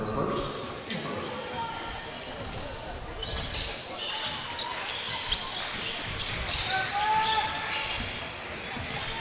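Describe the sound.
A basketball is dribbled on a court during a game, with repeated soft thuds of the ball under steady play-by-play talk.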